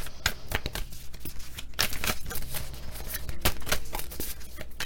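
Tarot cards are shuffled, making a steady run of papery rustles and crisp flicks that continue throughout.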